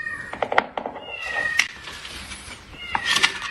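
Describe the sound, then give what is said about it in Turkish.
Kittens meowing while stuck inside a building's drain pipe: a string of high, thin, plaintive mews, some overlapping, with a few sharper cries. “3 yavru kedi yol veren sokağındaki bir binanın su giderine girdi. Ancak çıkışları o kadar da kolay olmayacaktı. Kediler boruda sıkıştı.”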